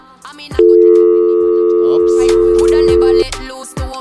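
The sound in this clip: A steady electronic telephone tone, like a line signal for an incoming call, holds at one pitch for about two and a half seconds, loud and unbroken, over busier background sounds that continue after it cuts off.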